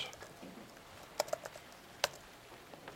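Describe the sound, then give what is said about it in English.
A few faint, sharp clicks of typing on a computer keyboard during a software demo, scattered irregularly against a quiet background. “Type a new name here. Test.”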